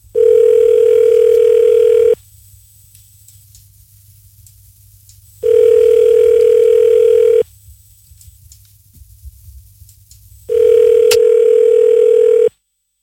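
Telephone ringback tone while calling a random number: three long, steady, mid-pitched buzzing tones, each about two seconds, separated by near-silent gaps of about three seconds.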